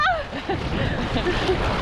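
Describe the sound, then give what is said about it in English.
Splashing and sloshing as people wade knee-deep into cold water of about 8 degrees. A steady, churning wash of water runs throughout, with voices exclaiming over it, beginning with a high cry. “We're officially in the water. Ice blocks. We're up to our knees.”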